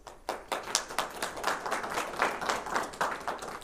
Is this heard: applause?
yes